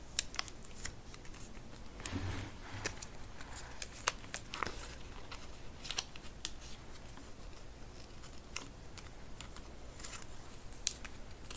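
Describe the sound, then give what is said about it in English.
A home interiors magazine is handled, trimmed and folded, with many soft crisp paper crinkles and light taps scattered throughout at a quiet level. “So we just want to remove the excess and then make sure we're folding it together in just the right way.”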